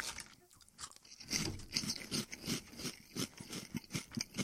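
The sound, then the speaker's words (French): Crunching on seasoned potato chips: quiet, rapid, rhythmic crisp bites and chewing that continue throughout, with no talking. “Mais ce seasoning-là, c'est un chip à ce prix, c'est du bonheur”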